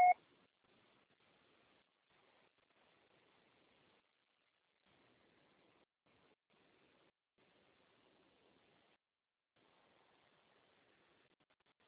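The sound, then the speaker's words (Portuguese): A single short voicemail beep after the recorded message, a brief tone at the very start followed by near-silent line hiss for the rest. “Sendo encaminhada para a Caixa Postal e estará sujeita à cobrança após o sinal. Deixe seu recado.”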